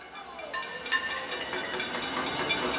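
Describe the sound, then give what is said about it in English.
Protesters in Venezuela bang on pots and pans at a demonstration over food shortages, making a faint, irregular clatter of sharp metallic clanks and rattles with no voices. “What you're hearing is the sound of a protest. For years, demonstrators in Venezuela banged on pots and pans to protest food shortages.”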